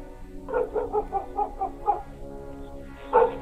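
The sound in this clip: Dog barking: a quick series of short, yelping barks clustered together, then a brief pause and another burst of barks near the end, fairly loud and with no talk.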